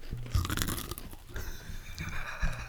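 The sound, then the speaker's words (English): Crunching of a cheese-flavoured snack chip being chewed, a few sharp, loud crisp bites followed by steady grinding mastication with no voices. “It tastes like a thick Pringle. Like a cheddar Pringle.”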